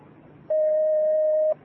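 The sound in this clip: A telephone line tone sounds as a caller's call comes in: a single steady, pure electronic pitch lasting about one second, rising sharply out of faint background hiss and cutting off cleanly.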